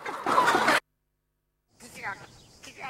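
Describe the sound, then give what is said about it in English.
Thousands of chickens fill a vast room: a loud, dense burst of massed clucking cuts off into silence, then quieter, scattered clucks and squawks return. “A vast room is filled with thousands of chickens.”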